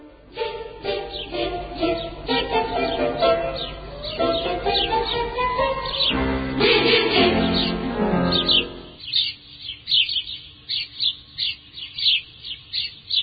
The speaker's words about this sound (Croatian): Pesma vrabaca je vesela i bodra, pa su i vrapcima često pripisivane takve ljudske osobine.